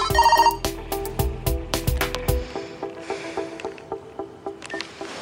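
A telephone rings in the middle of the night in a scene from the film Molly's Game: rapid, bright electronic ringing tones repeat for about two seconds, then give way to quieter rustling and clicks.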